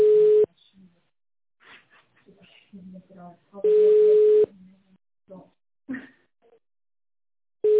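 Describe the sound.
Telephone ringback tone on a phone line: three long, steady mid-pitched tone bursts separated by stretches of quieter, soft talk, with the last burst cut off at the end.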